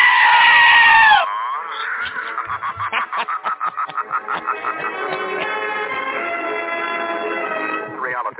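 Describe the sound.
A goat bleats loudly, one sharp, high cry followed by a long, wavering bleat with a rapid trembling pulse that gradually smooths out and fades.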